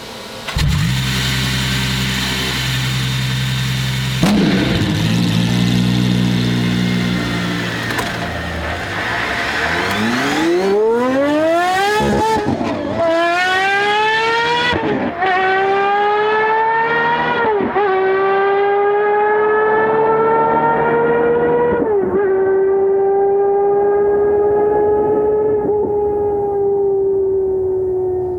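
A Gordon Murray T.50 supercar accelerating flat out through all its gears on a runway. The engine's loud, screaming note climbs steeply, dips sharply at several upshifts, and keeps rising to a sustained high wail.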